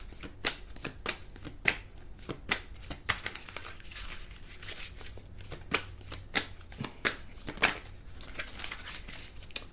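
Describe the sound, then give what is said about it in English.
Playing cards that stick together are shuffled, producing a long run of faint, papery flicks and riffles in irregular bursts, with no talk over them. “May I have some cards, please? These cards really stick together.”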